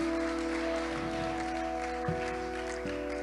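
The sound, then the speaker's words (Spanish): Congregation applause at a bilingual Spanish-English church service, a steady wash of clapping sustained under held keyboard or organ chords that shift once or twice. “Denle un aplauso al Señor give en esta to the Lord.”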